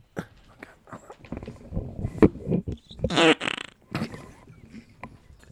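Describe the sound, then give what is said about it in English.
A fart blown into a microphone: one loud, buzzing, rubbery burst that stands out sharply over quieter background noise. “Fart mic strikes again.”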